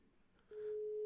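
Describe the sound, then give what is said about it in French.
A steady telephone line tone sounds during an attempted live radio call, starting midway and holding at an even, fairly loud, mid-pitched hum to the end with no break. “on va tenter un appel en direct à quelqu'un qui devait être là mais qui n'a pas pu être là”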